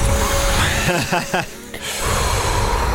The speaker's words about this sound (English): I'm hyperventilating. I'm getting more stressed. I'm getting more anxious. I need to stop this. Don't hyperventilate.